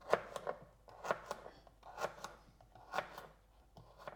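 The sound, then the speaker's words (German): Carrots being chopped with a knife: many crisp, fairly soft chops falling in quick little clusters, with brief pauses between clusters, and no talking. “Aber ich werde jetzt die letzte Karotten werde jetzt gleich schneiden.”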